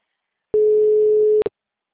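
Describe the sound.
A telephone line tone sounds while someone is being called: a single steady, mid-pitched tone holds for nearly a second on its own, then cuts off with a brief click-like blip.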